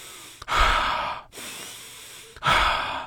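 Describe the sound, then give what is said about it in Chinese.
A person takes deep breaths: two long, heavy, airy breaths separated by a short pause, with no talking. “于是他做了几次深呼吸，”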